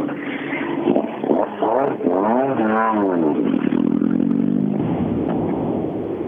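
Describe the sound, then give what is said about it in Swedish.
A Golf 3 rally car is driven on a rally stage, its engine a loud, continuous revving drone whose pitch rises and falls several times in the middle before settling into a steady roar. “duktig på att åka här i sin, sin Golf 3.”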